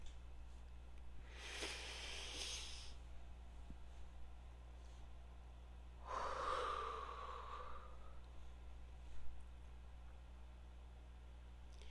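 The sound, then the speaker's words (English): A person takes a slow, deep breath, heard as two soft, airy breathing sounds separated by a pause over a faint steady hum. “And I'm going to end this with another deep breath.”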